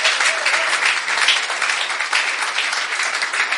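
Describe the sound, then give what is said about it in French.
A church audience applauding during a worship service, with dense, loud, steady clapping that holds evenly for the whole stretch. “Est-ce qu'on peut acclamer pour Dieu pour ce qu'il est en train de faire à l'église?”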